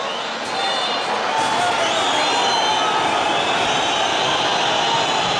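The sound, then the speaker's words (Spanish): A football stadium crowd whistles loudly in disapproval after Sporting's home win over Celta Fortuna, a continuous dense roar threaded with shrill sustained whistle tones. “Una sonora y mayoritaria pitada.”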